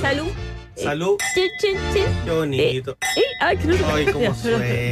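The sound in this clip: Wine glasses clink together in a toast, giving a couple of bright, ringing chimes amid lively talking voices.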